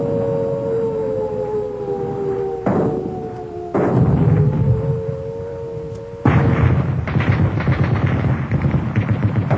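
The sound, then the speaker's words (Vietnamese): Gunfire and artillery fire in a battle: a dense, crackling rattle of rapid shots and heavy thudding bursts. For the first part, a steady wailing siren tone runs through it, and the shooting grows denser and louder toward the end. “những tiếng nổ rền như bắp rang của súng đạn, những tiếng bọp bọp của trung pháo, tiếng cùng cùng của đại liên, tiếng ùng ục của đại pháo”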